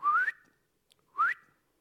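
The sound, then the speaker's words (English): A person whistles two short notes, each gliding quickly upward in pitch, separated by a brief silence. “Any of you can whistle like this?”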